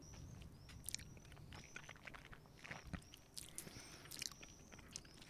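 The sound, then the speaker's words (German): Soft mouth sounds of someone sipping a blended malt whisky from the Highlands and Speyside: faint wet slurps and small clicks recur irregularly, with no talk. “Also ich finde ihn sehr lecker. Ich nehme nochmal einen Schluck. Aus den Highlands und der Space Side gemischt.”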